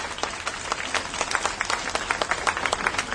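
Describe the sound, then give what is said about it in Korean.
Applause of support from a gathered audience at a mass, loud dense clapping with sharp individual claps standing out in an even, continuous patter. “우리 지지의 박수 한번 다시 부탁드립니다.”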